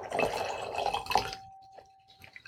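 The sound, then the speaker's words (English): Wine pours into a glass as a gurgling, splashing stream for just over a second, then stops, leaving a faint lingering tone and a few soft drips. “let's pour a little bit more of this wine.”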